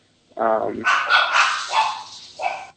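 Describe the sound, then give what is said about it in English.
A dog barks a few times in short bursts, the first with a clear tonal yelp, mixed in with people talking. “I have to apologize for the barking dog.”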